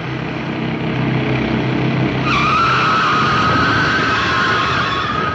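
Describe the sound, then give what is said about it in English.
Small roadster driving fast and skidding: a steady roar of engine and road noise, joined partway through by a loud, sustained high tire squeal that lasts to the end. “John decides to evade the cavalcade and flags down a kid driving a little roadster, and the fun begins.”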